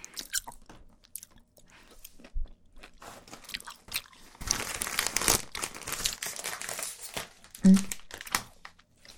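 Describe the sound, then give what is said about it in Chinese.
Someone eating an orange, with crinkly, crunchy biting and chewing: faint, irregular clicks and crackles that grow into a denser, louder stretch midway, then thin out again. “你怎么知道我爱吃橘子的？挺好吃的。”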